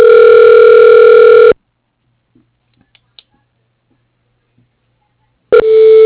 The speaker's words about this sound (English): Okay, one moment. Let me transfer you.